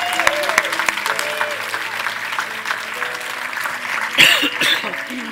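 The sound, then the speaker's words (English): A church audience applauds children: continuous crowd clapping with some voices mixed in, and a brief louder swell of sound near the end. “Can we give them a hand? Welcome. Celebrate this.”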